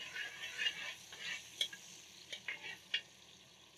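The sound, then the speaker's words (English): Ginger frying in hot oil, a faint, steady sizzle with soft stirring scrapes and a few small crackles spread through it. “I like to start off with a bit of ginger. I still give the oil a little perfume, a little flavor.”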